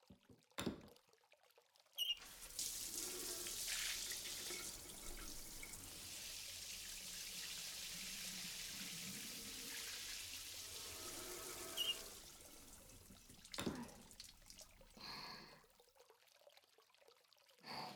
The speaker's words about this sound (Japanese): すみません。洗い流しますね。